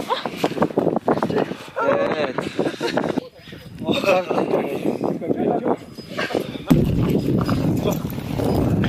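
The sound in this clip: Horses' hooves clip-clop as the animals walk through a muddy, high-altitude cold wetland near the southern source of the Yangtze, with many uneven, squelching footfalls in a steady rhythm.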